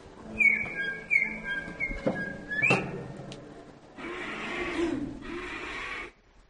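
A person whistles in imitation of a bird, giving a few short, high chirping notes with a quick upward flick. A stretch of broad, rushing noise follows.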